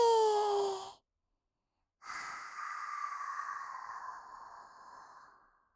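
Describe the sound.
Guided breathing in through the nose and out through the mouth: a short voiced breath, a pause, then a long airy exhale that slowly fades.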